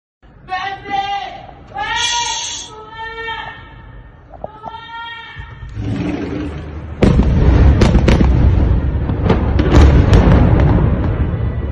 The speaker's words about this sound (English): What's happening here, for those listening, is a bombing that someone's filming off of the balcony of their apartment.